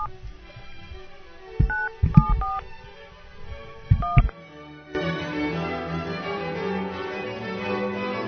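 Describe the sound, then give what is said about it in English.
Telephone keypad tones dial a number: a few short, clear dual-tone beeps in two quick clusters, followed by a denser, steady sound that fills the rest. “You got to dial one now.”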